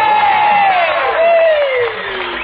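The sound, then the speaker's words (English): A Grand Ole Opry crowd cheers in welcome of a performer in 1949: dense, loud cheering with a long falling whoop running through it. “So, folks, let's give a nice welcome to Wesley Tuttle. Wesley.”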